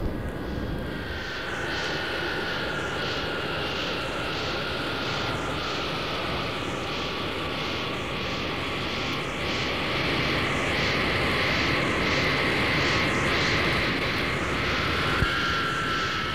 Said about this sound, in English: We are approaching the number one position at the runway and should be airborne in a couple of minutes.